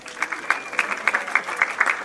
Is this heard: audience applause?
yes